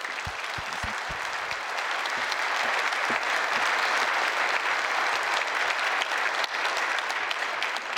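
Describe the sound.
An Edmonton audience applauds to welcome a speaker: a few scattered claps swell quickly into dense, sustained clapping that holds steady for several seconds.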